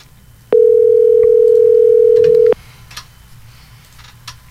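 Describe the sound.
Telephone ringback tone heard while placing a call: a single steady, loud electronic tone holds for about two seconds, then stops, leaving faint background noise.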